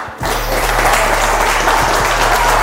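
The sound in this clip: Studio audience applause welcomes a guest onto a talk show. It starts abruptly and continues as a loud, steady wash of clapping throughout.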